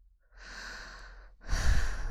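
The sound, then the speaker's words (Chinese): A person in bed breathing heavily: one long, soft inhale, then a louder, rougher exhale, heard alone. “你这样呼吸弄得我好难受啊。”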